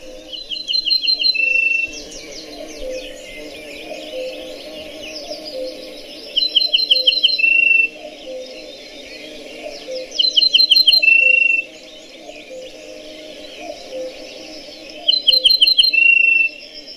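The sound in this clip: Bird song played from a recording: four bursts of high, bright, rapid trilled notes, evenly spaced a few seconds apart, ring out over a steady background chorus of softer chirps and insect-like buzzing.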